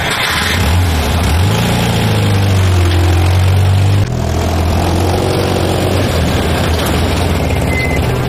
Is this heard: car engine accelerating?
yes